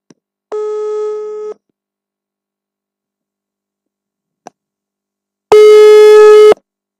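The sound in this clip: Ringback tone of a phone call that goes unanswered: two steady, buzzy one-second tones separated by a long silence, the second louder, with a faint click in the gap.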